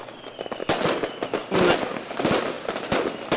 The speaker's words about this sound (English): I got some doves flying overhead, gonna drop some snap pops on the roof. Everybody, commence firing.